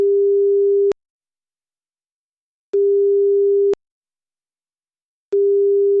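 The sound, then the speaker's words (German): Telephone ringback tone heard while placing a call: a steady mid-pitched tone sounding in roughly one-second bursts separated by longer silent gaps, with three bursts, the last cut short, and no voices. “Zeit für einen Anruf bei Pastor und Psychotherapeut Alfred Schaar.”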